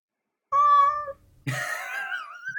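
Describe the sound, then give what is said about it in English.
A person imitates a cat's meow with two drawn-out, tonal cries. The first is steady and the second is longer and wavering, climbing in pitch with a strained, operatic quality. “Not really a cat. It's like an opera cat. I'm not sure. It sounds like an owl in distress.”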